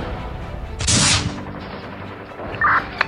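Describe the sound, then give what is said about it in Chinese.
Gunfire and an upright-firing automatic mortar in a night battle: one loud, sharp burst rips out, followed by fainter cracks and a short high tone. “枪弹留下的无数条炽热轨迹让夜空越发朦胧。一门直立开火的自动迫击炮向他们头顶喷吐着一串串松散迟缓的粗重弹药。”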